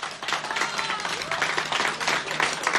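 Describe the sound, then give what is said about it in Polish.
Studio audience applause welcomes a guest on a Polish radio program: a brisk, dense patter of many hands clapping, fairly loud and sustained with small surges and dips. “To miło nam cię powitać i oklaski dla ciebie.”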